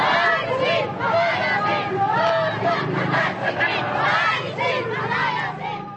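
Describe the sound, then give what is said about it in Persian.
Thousands of protesters chant anti-government slogans while marching through the streets of Manila on May 1, a loud, dense mass of voices that stays steady and unbroken throughout. “روزی 1 می از جمله هزاران نفر شعارهای ضد دولت فیلیپین و رئیس جمهور گلوریا آرویو در دست و در زبان با کوچه و خیابان های پایتخت این کشور شهری منیلا ریختند.”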